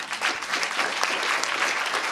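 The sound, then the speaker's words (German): An audience applauds as a speaker is called onto a stage, a dense, steady wash of many hands clapping at an even loudness from start to finish. “Herzlichen Applaus.”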